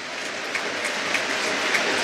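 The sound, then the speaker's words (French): A stadium crowd applauds steadily during a minute of applause, a dense, even patter of clapping with a few sharper claps standing out. “il y a cette minute d'applaudissement qui résonne particulièrement, vous vous en doutez, aujourd'hui.”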